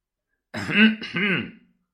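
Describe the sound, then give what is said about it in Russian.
A man clears his throat in a courtroom as a judge faces an accused man: one throaty rasp of about a second, split into two short voiced pushes, heard alone against silence. “Судья Фрезер Ментон, с пристальным интересом наблюдавший за обвиняемым, прочистил горло.”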